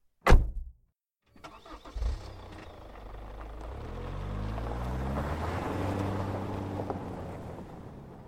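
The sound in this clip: A coupe's engine starting and driving away at night: a sharp knock, then the engine catching and settling into a low, steady rumble that grows louder and rises in pitch as it pulls off, with no voices.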